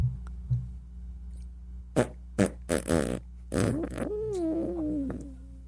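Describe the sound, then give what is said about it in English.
Comedic fart sound effect of air escaping from a body: several short, faint spluttering bursts followed by a longer, drawn-out squeaky tone that wavers in pitch. “That's the sound of a fart coming out of one of the bodies right before it's getting reanimated.”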